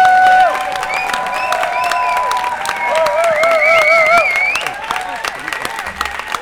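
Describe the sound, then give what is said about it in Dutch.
Enthusiastic audience applause after the premiere of a play about Galileo in a theatre. Many sharp claps run throughout, with cheering and sustained vocal tones over them, and the level dips in the last seconds. “Mag ik nog één keer een applaus voor deze actrice?”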